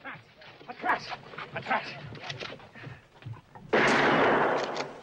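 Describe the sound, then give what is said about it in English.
A gunshot blasts the lock off a wagon: one sudden loud report cuts in after voices talk over rustling movement, its noise holding briefly before fading. “Levi shoots away the lock on 1 wagon.”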